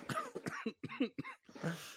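Coughing, harsh and hacking, in a quick run of several short, rough bursts with a throat-clearing rasp toward the end. The coughs are fairly faint.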